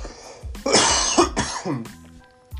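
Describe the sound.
Coughing: a few harsh, raspy bursts in quick succession mixed with throat clearing, fairly loud and with no talk over them.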